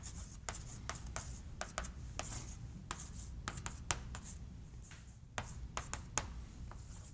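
An equation is written on a board as many short, faint scratchy strokes in an irregular, quick rhythm, with no talking.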